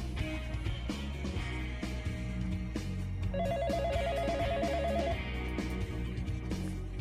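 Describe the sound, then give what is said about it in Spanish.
An incoming listener call rings into a radio show as a single warbling telephone trill lasting under two seconds, set over steady background music. “Tengo una llamada al aire, a ver, a ver si la puedo habilitar.”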